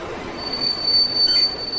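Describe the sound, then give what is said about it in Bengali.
A piercing metallic squeal of train wheels as an express train arrives at a railway station in Haridwar at dawn. The high, steady whine holds throughout over a low rumble. “ভোর 6টায় দুন express পৌঁছালো হরিদ্বার।”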